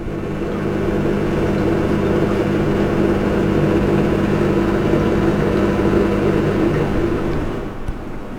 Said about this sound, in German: Was Sie gerade gehört haben, ist ein Geschirrspüler.